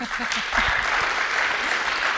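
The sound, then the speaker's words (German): Applause from a studio audience, a steady dense patter of clapping hands that holds at an even, fairly loud level for about two seconds, with a few low thuds near the start. “Das braucht definitiv Applaus.”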